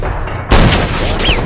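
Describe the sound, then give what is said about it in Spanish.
Gunfire in a 2013 action thriller film: one loud, sharp blast about half a second in, followed by dense, sustained noise through the rest of the short clip. “Barre la apunta y Mike le dispara, mientras Christie entra en el restaurante.”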